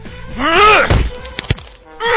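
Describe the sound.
A punch lands on an invulnerable body, a few blunt thuds and one sharp smack following a strained vocal grunt, with a voice rising again at the end.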